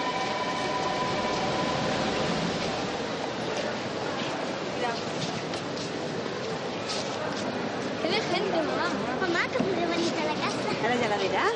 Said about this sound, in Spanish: Todos caminan para marcharse de la estación.